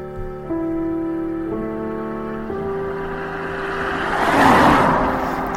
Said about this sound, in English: Blue, small BMW, diesel, maybe a 3 Series.